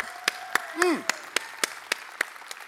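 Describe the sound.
Church audience clapping to welcome the pastor, sharp claps landing in an even rhythm, about nine beats, alongside voices.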